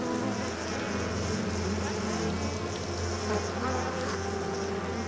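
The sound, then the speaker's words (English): A swarm of fireflies drones in a dense, steady buzz over a low hum as they move into formation. The buzzing holds level and unbroken throughout. “some insects have remained loyal to me, namely the fireflies. All right, boys, get into formation.”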